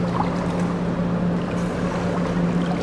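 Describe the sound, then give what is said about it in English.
A generator runs in the distance behind a factory at the edge of a forest, giving a steady low hum that stays even and unbroken throughout. “I spend a lot of time here at the edge of the forest, behind the factory. You can hear the generator in the distance.”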